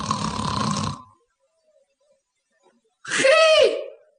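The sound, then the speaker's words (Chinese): A voice imitates snoring. A rough, breathy burst is followed after about two seconds of silence by a louder, voiced, nasal snort. “再仔细一听啊，听见呼噜声”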